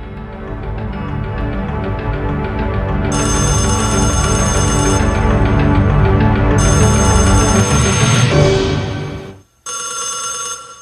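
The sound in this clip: A telephone rings after a number is dialled: loud, shrill electronic ringing in repeated bursts over a dense, continuous din. It drops out briefly near the end, then the ringing resumes.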